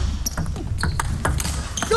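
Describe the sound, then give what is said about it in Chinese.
A table tennis ball bouncing during a serve in a match: a few crisp, high ticks spaced irregularly over a low, murmuring crowd background. “擦网重发，沪上发球3-7。”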